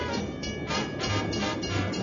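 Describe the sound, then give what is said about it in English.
A moving train in a simulated Orient Express ride gives a steady low rumble with faint rhythmic pulses running through it. “So, we're on a moving train.”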